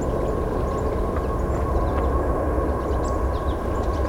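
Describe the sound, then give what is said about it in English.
A train passing with a steady, loud low rumble and roar that holds without a break, with no talking. “Guess I'm gonna have to wait a bit for this train.”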